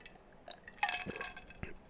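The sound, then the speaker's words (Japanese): Quiet sipping of coffee, a few soft slurping and swallowing sounds close together, faint and otherwise alone. “ちょっとコーヒー飲むね。”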